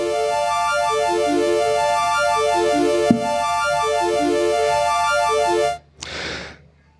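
A synthesizer arpeggio sped up eight times as an effect becomes a rapid, dense cascade of bright repeating notes at steady loudness. A single click sounds partway through. The pattern cuts off near the end and is followed by a short noisy burst.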